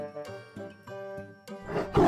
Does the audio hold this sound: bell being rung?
no